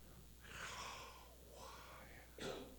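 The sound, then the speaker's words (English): A voice imitating breathing, as in pronouncing the Hebrew name of God: three soft, breathy exhalations with airy hiss, the last one shorter and sharper, quiet and without spoken words. “What does that sound like? It sounds like breath. God put within man the breath of life.”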